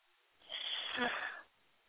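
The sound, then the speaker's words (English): A single deep breath drawn in during a prayer: one soft, airy rush of air lasting about a second that swells and fades smoothly, faint and alone. “Now take a deep breath.”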